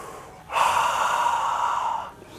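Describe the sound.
A single long, deep human breath with a steady, airy rush that lasts well over a second and then fades out.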